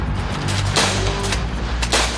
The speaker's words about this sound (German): 1, 2, Feuer! Und ich habe echt das Gefühl, ich bin hier mitten auf einem Schlachtfeld, trotz Platzpatronen.